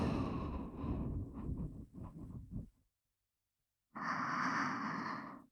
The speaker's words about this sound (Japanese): 口から吐いて、鼻から吸って、